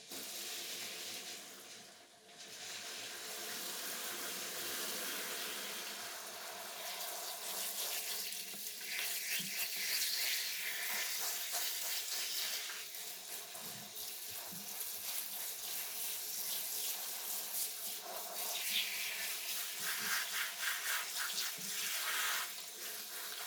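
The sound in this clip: Water runs steadily as hair is rinsed out after a hair treatment, a continuous hissing spray with faint splashing throughout.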